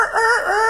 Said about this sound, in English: I'd wake up and hear the rooster crow every day.